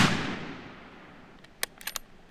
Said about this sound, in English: He's shooting some with a copper round and some with a round made of lead.